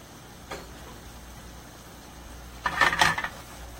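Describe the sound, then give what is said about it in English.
Gnocchi with spicy sausage tossed in a pan: a faint clink, then a short rattling burst of food jostling against the pan. “And toss it. Now if you can't toss it, it's okay to use a spoon. Kind of break it up.”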